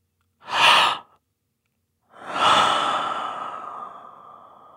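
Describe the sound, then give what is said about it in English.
Human breathing: a short, sharp gasping breath, then a pause, then a longer, airy, sigh-like breath that trails off slowly. No speech. “there are a lot of sounds where it's clearly identified as human breath. So inhalations and gasps.”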